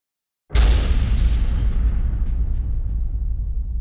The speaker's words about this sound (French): Mon Dieu, qu'est-ce que c'était? Quelle était cette explosion?